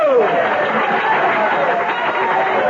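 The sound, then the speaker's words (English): An audience applauds and chatters as a senator-elect is presented on election night. Clapping and crowd noise hold steady throughout. A brief falling tone sounds at the very start. “Your applause is heartwarming, and I am grateful.”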